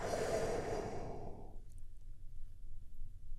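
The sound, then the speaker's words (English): A deep breath released during a guided meditation: a soft, airy rush of breath that fades out after about a second and a half, leaving near-silence. “take another big, deep, healing breath right now. Here we go.”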